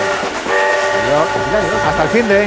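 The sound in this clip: A train whistle blows in steady, sustained tones over the rumble of a moving train. It is loud for the whole moment and mixes with other overlapping sounds.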